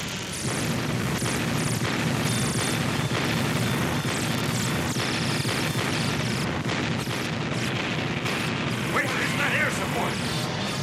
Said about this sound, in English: And ready, open and fire!